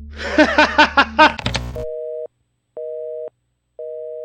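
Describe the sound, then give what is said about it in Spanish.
Telephone line tone after a call is cut off, starting right after a brief voice: a clean electronic beep repeats on and off in three even bursts with silent gaps between them. “Se cortó la llamada.”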